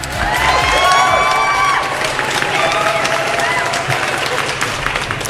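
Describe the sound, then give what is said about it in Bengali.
Enthusiastic applause from a crowd in appreciation of a poem reading, dense, loud clapping mixed with cheering voices, sustained steadily throughout. “একদম full on হাততালি থাকলো আপনার জন্য।”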